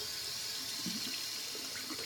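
Running tap water as hands are washed in a home kitchen before making a lime dessert, a soft, steady hiss with faint splashing that continues without a break.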